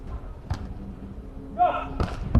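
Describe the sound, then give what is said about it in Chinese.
Beach volleyball strikes during a match with a Qingdao team serving: a few sharp, dull thumps of the ball spaced apart, with a brief tonal blip between them and a faint voice underneath. “8-5，青岛十二队张泰来发球，”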